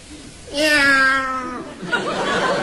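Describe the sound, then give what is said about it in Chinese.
A human voice imitates a cat's meow as a comic performer's show of emotion before reciting a doggerel verse: one loud, drawn-out, wavering meow with a quivering pitch. “我以为哪位踩了猫了呢。”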